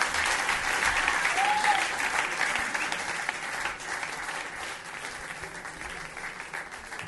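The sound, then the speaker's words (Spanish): Audience applause at a jazz concert in a café, with dense clapping from a crowd that stays fairly loud for seven seconds and eases slightly toward the end. “Bravo. Bravo. Aplausos.”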